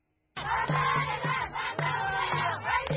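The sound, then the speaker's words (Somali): A large crowd fills the main streets of Hargeisa waving Somaliland and Ethiopian flags, a loud roar of many voices that bursts in abruptly and keeps up a dense shouting din with pulsing surges. “Dadweyne tiro badan oo ruxaya calanka Soomaaliland iyo ka dalka Itoobiya ayaa soo buuxdhaafiyey jidadka waaweyn ee magaalada Hargeysa”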